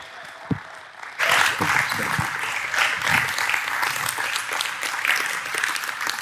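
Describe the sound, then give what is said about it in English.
Applause from the audience at the Crossing as a speaker is welcomed: after a quiet moment with a single soft thump, dense clapping starts abruptly and holds strong and steady to the end. “Will you put your hands together and welcome our new friend to the Crossing, Ken Ham.”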